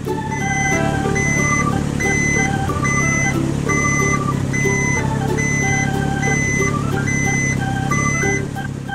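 A blue truck's steady, loud engine drone runs throughout, with a repeating pattern of electronic beeps layered on top and no talk.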